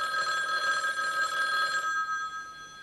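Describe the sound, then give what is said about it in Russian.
A telephone rings on a call placed to a pharmacy, with the handset held up to a loudspeaker. A single steady electronic ring lasts about two seconds, then cuts off and leaves faint hiss. “А затем поднесли трубку к колонке и позвонили в эту аптеку.”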